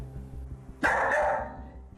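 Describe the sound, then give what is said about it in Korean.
A dog left alone at home barks excitedly. One loud, sharp bark bursts out of a quiet background with a low, steady hum. “이러고 계속 짖는 거예요? 네네네. 저희 올 때까지 계속 이러고 짖어요.”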